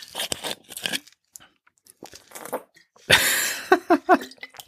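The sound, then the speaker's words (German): A mandarin orange is peeled and eaten, giving bursts of papery tearing and crinkling rind, then a louder, denser rip followed by several short crunchy, wet bites, separated by quiet gaps and without talk. “Deswegen gönne ich mir jetzt auch erstmal eine Mandarine mitten in der Sendung.”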